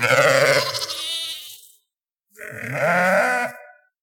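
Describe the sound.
Sheep bleating: two long, wavering bleats, the first about a second and a half and the second about a second, with a brief silence between them.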